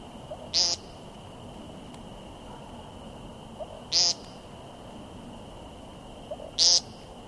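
A bird on the ground gives three short, high, nasal ping calls spaced several seconds apart, each crisp and loud against a faint steady hiss and a thin constant high tone.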